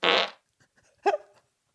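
A fart: a loud, buzzy burst, then after a short silence a brief, quieter sputtering one, with nothing else heard.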